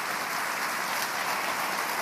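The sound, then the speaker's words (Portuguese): Applause from a church audience during a sermon: a dense, even wash of clapping that holds steady for the whole stretch, with no voices. “Você pode aplaudir a Deus por isso? Ou só pela bênção?”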